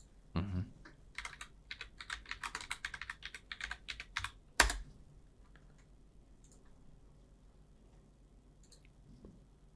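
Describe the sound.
Typing on a computer keyboard to run an online search: a quick, irregular run of many light keystrokes ends in one sharper, louder click, followed by near quiet with a few faint taps.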